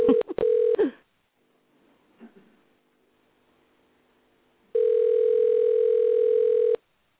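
A telephone dials out to call in a phone guest. A quick run of touch-tone beeps gives way to a quiet pause with faint clicks, then a loud steady tone that lasts about two seconds.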